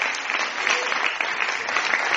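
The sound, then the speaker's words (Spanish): An audience applauds in church, a continuous, bright wash of many hands clapping at a steady, fairly loud level with no clear break or voice on top. “Le da un aplauso a la hermana y le da un aplauso al Señor.”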